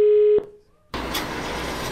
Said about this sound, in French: Ah, ça sonne déjà.